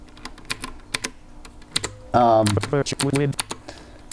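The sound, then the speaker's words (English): Keystrokes on a computer keyboard as an administrator password is typed, sharp, separate clicks at an uneven pace, with a voice speaking briefly in the middle. “And I will just type. Let's see. Password.”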